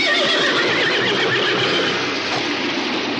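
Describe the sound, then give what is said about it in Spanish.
Horses whinny loudly and hooves clatter as two horses break loose and run off in a Western setting; the sound is continuous and dense throughout. “Cuando llega a su lado se apea y otros dos caballos que lleva el niño se escapan.”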